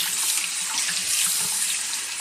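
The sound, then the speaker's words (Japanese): Shower water running steadily over hair during washing, a continuous, even hiss of spray with no pauses and no voices. “こうしてシャワーを流すだけでも、髪の汚れはほとんど取れてしまうそうですよ。”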